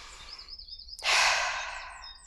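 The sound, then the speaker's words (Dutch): A deep breath drawn in and let out: a soft, airy inhale followed by a stronger, rushing exhale that slowly fades, faint overall and with no speech. “Dus ik adem even een keer diep.”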